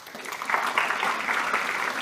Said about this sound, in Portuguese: Eu vou pôr umas palmas.